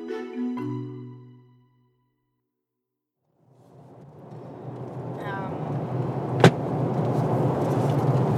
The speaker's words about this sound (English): We are driving out to Minyiri, which is kind of like southeast Arnhem Land.